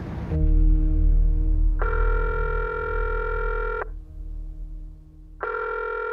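Telephone line tones in a street phone booth: a steady low tone over a faint rumble, joined by a brighter tone for about two seconds, then a pause before the brighter tone returns near the end.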